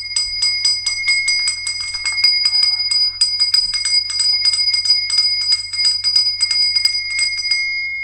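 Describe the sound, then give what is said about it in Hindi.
A kulfi seller's bell rings rapidly and repeatedly in bright, metallic bursts over several seconds, with a brief pause partway through before the ringing resumes. “Ice cream वाले भैया की cycle वाली गाड़ी का भोपू हो या फिर कुल्फी वाले भैया की घंटी,”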